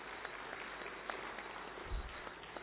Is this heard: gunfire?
no